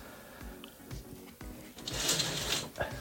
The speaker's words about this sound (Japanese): カーテンを開けるとそして閉めると開けるあ今日もいい天気そうですね